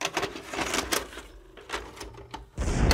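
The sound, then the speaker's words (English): A VHS tape being pushed into a player: a brisk run of plastic clicks and mechanical rattles, then a louder clunk and hum as the deck takes it. “Let's pop in the tape.”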